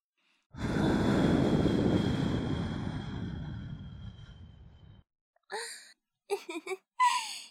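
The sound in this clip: A long, gentle breath is blown into the ear during ASMR ear cleaning, an airy whoosh that fades slowly over about four seconds. A few brief, soft spoken bursts follow.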